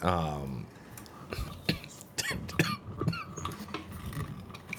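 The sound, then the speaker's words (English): Coughing during a tabletop role-playing game session: a few sharp, irregular cough bursts following a short voiced sound at the start, mixed with throaty vocal noises. “he starts coughing”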